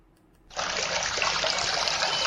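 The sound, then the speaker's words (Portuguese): Water trickles and splashes in a mineral water advert, starting suddenly after a brief quiet moment and then flowing as a steady, bright, loud stream. “pure cristalina água dos Chiuta, água mineral captada a 950 metros de altitude na fonte centenária de Chiuta Serra”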